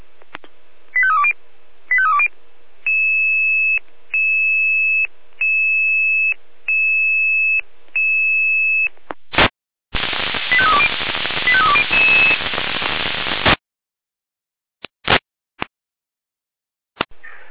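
Fire brigade radio alerting tones: quick warbling tone bursts, then a regular series of evenly spaced steady high beeps, followed by a loud rush of radio static and a few sharp clicks.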